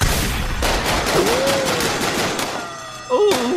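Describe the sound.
Rapid automatic gunfire rattles in a video game robbery scene as a character is shot. A dense stream of shots lasts about two and a half seconds, and brief tonal electronic effects follow.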